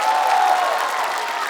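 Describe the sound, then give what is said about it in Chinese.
An audience at a live concert applauds a university horsehead fiddle ensemble. The clapping is dense and loud, with a faint sustained cheer running through it for the brief clip. “再次给我的乐团掌声，谢谢各位。”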